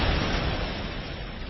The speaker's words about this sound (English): This is the sound of a car bomb exploding less than a block away.